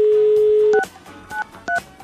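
A telephone number is dialled to call an institute. A steady dial tone holds, then cuts off as three short keypad beeps follow in quick succession.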